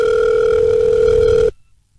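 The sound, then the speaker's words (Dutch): A telephone dial tone sounds while a call is placed: a loud, steady electronic hum that holds for about a second and a half, then cuts off abruptly into near silence. “We gaan even bellen.”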